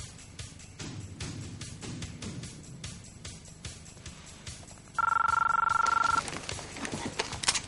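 A telephone rings in a scene from the 1999 science fiction film The Matrix: a single bright, trilling burst of about a second stands out over a low, murmuring background.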